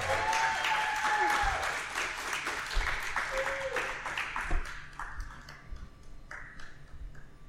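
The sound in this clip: Audience applause welcoming a guest onto a live show: full clapping with a few voices rising over it, gradually thinning into scattered individual claps as it fades.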